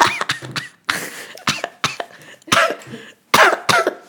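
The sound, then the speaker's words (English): A harsh coughing fit breaks out in many sharp, loud bursts. They come in quick clusters with short pauses between them. “That coughing break.”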